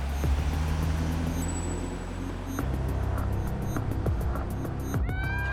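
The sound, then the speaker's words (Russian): A car drives away, its engine giving a steady low rumble with a thin high whine above it, at an even level throughout. “Машина Глеба уезжает.”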